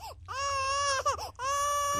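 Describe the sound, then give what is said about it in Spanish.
A child cries in long, high, wailing bursts broken by short catches of breath, loud and harmonic, with no talk over it. “Debe ser incómodo porque el niño está llorando.”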